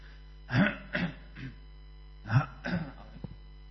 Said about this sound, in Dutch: Sorry, er zit iets in mijn keel.